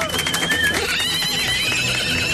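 A horse whinnies, a high wavering neigh that slides downward over the first second before thinning into fainter tonal traces over a steady noisy background.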